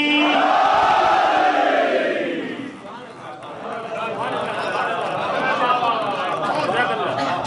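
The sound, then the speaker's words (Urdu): A crowd shouts the Naara-e-Haidari slogan in a loud, unified roar over the first two seconds. The roar then subsides into a lower murmur of many voices. “نئے جذبہ، نئے ولولہ کے ساتھ لگا دیجئے نعرہ حیدری۔”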